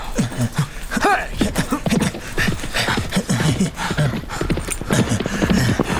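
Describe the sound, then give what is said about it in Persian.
Horses galloping away as riders flee, with many rapid hoofbeats in a dense, steady stream and a brief vocal sound partway through. “بیا بهتر سوار اسب بشیم و ازش فاصله بگیریم. باید خیلی دور بشیم”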